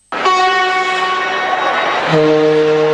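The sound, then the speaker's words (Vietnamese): A vintage tourist train rolls on iron wheels over the rails in Chile, giving a loud, sustained tonal whine with a rich harmonic ring that starts abruptly and drops suddenly to a lower pitch near the end. “Rời thủ đô Santiago của Chile, đoàn tàu cổ chậm rãi lăn bánh qua những cây cầu cao, những triền đồi xanh và các thung lũng trải dài ngập nắng. Tiếng bánh sắt nghiến trên đường ray hòa cùng khung cảnh thiên nhiên thanh bình”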